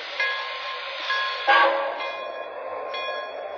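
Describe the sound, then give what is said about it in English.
A passenger train, number 26, pulls out of a station on track 1, sounding a sustained tonal horn or whistle with a few sharper accents. It is moderately loud, and no voices are heard. “Now departing Port New York on track 1, train number 26, the 20th Century Limited.”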